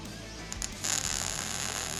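A trigger-operated welding torch laying a bead on metal during a beginner's first weld: a couple of faint clicks, then a steady, harsh electric buzzing crackle that starts abruptly and continues to the end.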